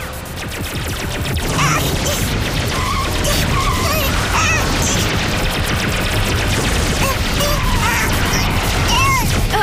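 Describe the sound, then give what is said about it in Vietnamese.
Powerful cartoon laser blast fired during an attack: a loud, dense barrage of crackling zaps, crashes and chirping electronic sweeps that runs continuously for nearly ten seconds. “Laser sức mạnh khủng khiếp, bắn.”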